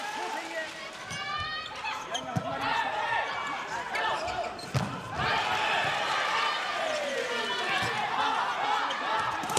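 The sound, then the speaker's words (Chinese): Ball strikes at the start of a women's volleyball final between China and Japan at the Asian Games, Japan serving first: a few sharp hits cut through steady crowd noise and voices in an indoor sports hall. “好，全场比赛开始，日本队率先发球。”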